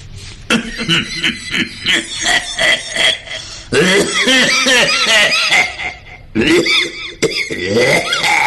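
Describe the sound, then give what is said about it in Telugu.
A voice imitates an old man coughing on a bus, producing a few raspy, throaty bursts and hacking sounds that run into one another, loud and rough in tone. “దగ్గుతున్నాడు, పక్కన విద్యార్థి తాతగారు మీరు బాగా దగ్గుతున్నట్టున్నారు”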